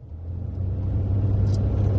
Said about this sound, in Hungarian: Az autó a Gyöngyösi úton kapaszkodik, lassít és berreg.